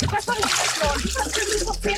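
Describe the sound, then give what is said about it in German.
Water splashes and sloshes continuously as a person slides into a 28-degree warm swimming pool, with people talking over the splashing. “Ich rutsche runter ins 28 Grad warme Becken.”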